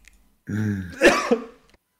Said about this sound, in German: Oh Ja, krieg ich direkt hier die Husterei.